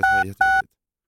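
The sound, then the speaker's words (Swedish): Two short touch-tone keypad beeps as a telephone is dialed, the second after a brief gap, then silence. “Nu ska vi se, nu ringer vi upp här.”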